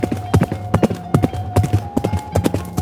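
Quick, steady clip-clop of a ridden horse's hooves, hurried toward a nearby village; many sharp hoofbeats fall in an even, repeating rhythm throughout, with a faint steady tone beneath.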